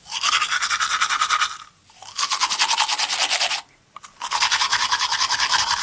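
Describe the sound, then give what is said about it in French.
Vigorous tooth brushing with mint toothpaste: three bursts of rapid, rhythmic scrubbing strokes, loud and bristly, separated by two short pauses. “un brossage énergique des dents.”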